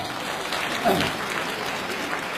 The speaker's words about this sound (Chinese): 更应该感谢的是我们热情的观众给我们这么好的掌声